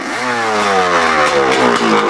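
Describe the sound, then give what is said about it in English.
A motorcycle engine revs hard to drive a custom propeller for marine propulsion. Its harmonic drone climbs in pitch early on, then holds a loud, rough, steady roar with a clattering edge. “They have a propeller, they're using a motorcycle.”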